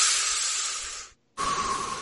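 Slow, deliberate breathing as a relaxation exercise: a long, airy, hissing breath fades into a brief silence, then another steady breath starts abruptly. It is loud and alone with no talk.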